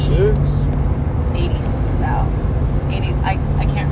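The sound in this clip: Steady low road rumble of a car driving west on Interstate 66, a highway, heard from inside the moving vehicle, a constant dense hum with a faint steady tone running throughout.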